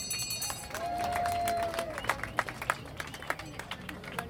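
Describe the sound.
Scattered audience applause at a community event, a few sparse claps that pick up toward the end, mixed with crowd noise and talk.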